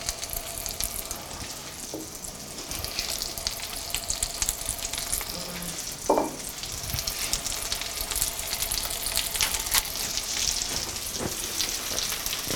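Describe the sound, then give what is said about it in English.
Small cakes made from Thanksgiving leftovers fry in a pan, giving a constant, soft crackling sizzle with a brief louder pop of spattering oil partway through. “Okay, all these are gonna get, they're gonna get enough time on each side that they get super brown and beautifully crispy.”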